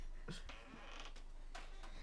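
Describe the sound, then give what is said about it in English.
A chair creaking, with a few short, faint squeaky creaks, one early and one near the end, over a steady low background hiss. “For the record, that's not me farting. That's my chair going.”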